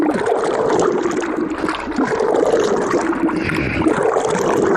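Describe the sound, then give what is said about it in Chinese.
Water and paper pulp stirred over and over in a mixing bucket for papermaking, giving a continuous, fairly loud sloshing and gurgling swirl with no pauses and no talk. “按比例加入清水，在搅拌桶中反复搅拌，最终化为细腻纸浆。”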